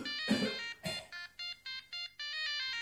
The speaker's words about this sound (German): Ihr Telefon klingelt.